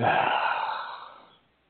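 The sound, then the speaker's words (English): A single long, deep exhale, breathy and sigh-like, starts fairly strong and fades smoothly to silence over about a second and a half, with nothing else heard. “try it with me. Inhale. Exhale.”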